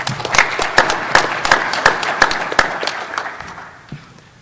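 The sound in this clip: An audience applauding to welcome a speaker at a brewery safety presentation: a steady patter of many hands clapping that gradually fades out over a few seconds.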